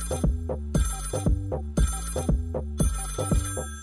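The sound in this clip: A telephone ringtone sounds for an incoming call, a loud electronic pattern of pulsing notes that repeats in a steady rhythm several times, with no talking.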